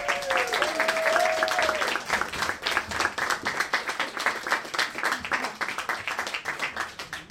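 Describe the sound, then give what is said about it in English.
An audience at a live comedy show applauds as a performer is brought onstage. Dense, continuous clapping holds steady at first, then grows a little patchier toward the end. “Yes, please put your hands together. Stamp your feet if you want.”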